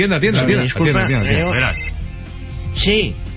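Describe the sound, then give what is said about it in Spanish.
An incoming call sets a telephone ringing, its repeated tone running faintly beneath loud talking voices. “ya me está entrando la llamada”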